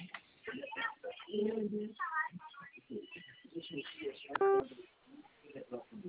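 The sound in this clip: A single short telephone keypad tone from pressing zero during a recorded telemarketing call offering a credit line. The tone sounds once, briefly, among continuous talk.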